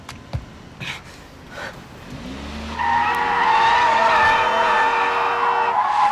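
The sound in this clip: Tires shriek as a car skids through a sharp U-turn in front of traffic and then swings hard right. A few scattered knocks and engine noise lead into a loud, sustained, high-pitched squeal that runs to the end.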